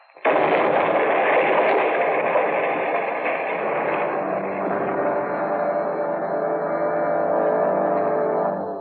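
An explosion from a thrown bottle of nitro bursts in with a sudden loud blast, then rolls on as a dense, roaring rumble for several seconds before cutting off.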